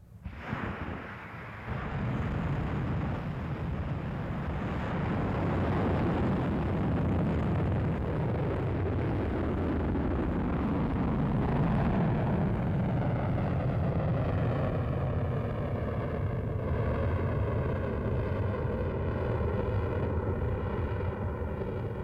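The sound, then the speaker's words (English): Atlas liquid-propellant rocket launching, with over 367,000 pounds of initial thrust: a sudden onset of deep, broad roaring that stays loud and steady for about twenty seconds, with a shifting, wavering texture toward the end. “The Atlas is a liquid propellant rocket which generates an initial thrust of over 367,000 pounds.”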